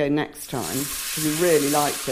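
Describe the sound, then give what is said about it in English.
Gnocchi sizzling as they are added back to a hot pan, a steady frying hiss running under continuous talk. “Do you hear that? That's the sound of me adding the gnocchi back to the pan.”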